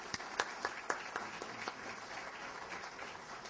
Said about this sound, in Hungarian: Ehhez szívből gratulálok, és szeretném, hogyha most közösen megtapsolnánk ezért.